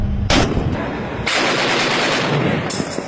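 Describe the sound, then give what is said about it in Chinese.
Rapid automatic gunfire lays down blocking fire at a target during a naval warship drill, in sustained loud rattling bursts that run almost continuously. “对目标实施拦阻射击。”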